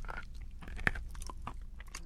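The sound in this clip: Biting and chewing crumbly, chalk-like dirt sold as not for human consumption: a sharp crunch early on is followed by quieter, gritty chewing and crumbling sounds, with no talk over them.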